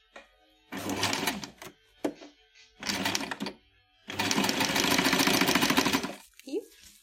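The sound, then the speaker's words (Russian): Sewing machine stitching fabric for drawstring produce bags, sewing the casing closed with ribbon inside. A few fast, buzzing runs of stitching start and stop, with the last run the longest and most steady. “Главное в шитье фруктовок и в зашивании кулиски — это чтобы лента не попала под шов.”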